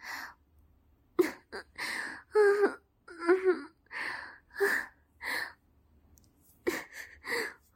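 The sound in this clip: Crying, with wailing sobs and gasping, sighing breaths in a series of uneven bursts broken by short silent pauses. The wails waver in pitch.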